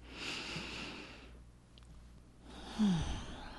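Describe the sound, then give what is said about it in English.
A deep breath, quiet and alone: a soft, airy intake of air, a brief still pause, then a breathy release. “Today, take a deep breath.”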